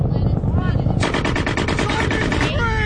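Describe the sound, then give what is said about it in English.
Rapid gunfire from a firefight in a film scene: after about a second of brief voice-like sound, dense bursts of shots start abruptly and keep going at a steady, loud level. “In this scene, a family trip to the drive-thru seemingly triggers the memory of a firefight for Sergeant Harris.”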